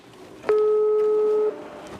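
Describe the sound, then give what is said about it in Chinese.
A telephone ringback tone sounds while a call is placed to a family: a single steady one-second beep at a mid pitch, alone over a faint background hiss. “我说那我先打个电话给你家里人，跟你爸妈先报个平安。”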